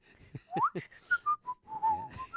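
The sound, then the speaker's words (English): A person whistles a short, casual tune alone: a quick upward glide followed by a string of clear, held notes that step along at a moderate pace. “No, I can't help but whistle. I'm whistling.”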